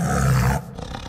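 A tiger roars, a loud, deep, rasping roar lasting about half a second before it breaks off into a quieter, fading rumble.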